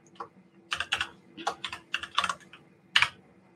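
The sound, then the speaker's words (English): Typing on a computer keyboard while working in SystmOne clinical software: many quick, irregular key clicks with a brief pause midway and one sharper tap near the end. “So now if I go back and do that, so I'm going to type in something here.”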